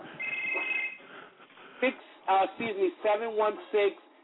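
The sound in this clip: A telephone rings with an incoming call: a short, steady electronic two-tone ring near the start, followed by a voice talking.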